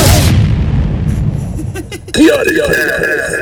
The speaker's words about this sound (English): Because it builds and it builds and then they all go, break! And that's when the explosion happens.